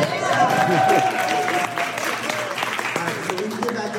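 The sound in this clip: Audience applause for a speaker at a presentation: steady, moderate clapping from a crowd, with voices talking over it.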